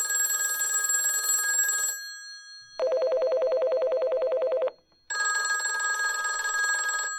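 Old landline telephone ringtones: a harsh jangling bell ring, then a rapid warbling electronic trill, then the bell ring again, each burst about two seconds long with short pauses between.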